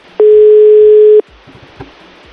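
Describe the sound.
A telephone dial tone sounds while a call is being placed: one loud, steady, unbroken tone lasting about a second, then faint clicks and low noise.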